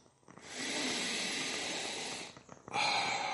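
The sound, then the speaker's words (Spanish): A slow, deep breath: a long hissing inhalation that lasts about two seconds, then a short pause and the start of another breath. The breathing is quiet, and no speech is heard. “aguanta, aguanta, respira profundo.”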